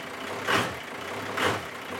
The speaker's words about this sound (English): 6:11 p.m. Driving back from Mandra.